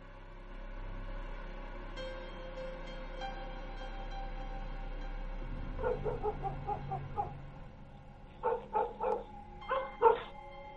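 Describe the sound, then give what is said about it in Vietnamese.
Dogs barking at night in a village, first a low rumble, then a run of quick, light yaps, then a few louder, sharper barks in spaced bursts. “Có tiếng chó cắn ma nhấm nhẳng vang lên trong đêm.”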